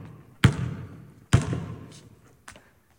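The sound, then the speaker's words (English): Basketball thumps during an attempt to sink a shot at a hoop. Three hard, booming impacts are heard, each trailing off in a short ring, and the third is noticeably fainter than the first two. “I'm going to probably get to six here whenever I drain this. But, yeah, that's just kind of where I'm at right now in my life in general. So, all right, show us your best shot here.”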